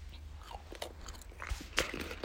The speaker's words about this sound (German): Ich esse eh Schokokekse während der Aufnahme, also viel schlimmer kann es nicht werden.